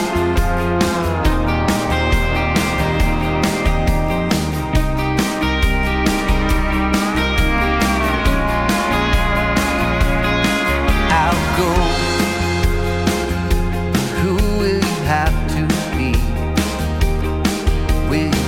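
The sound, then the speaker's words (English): A recorded song plays throughout, dense full-band music with a steady, regular beat and sustained melodic lines, loud and continuous from start to finish. “the song actually sounds like this.”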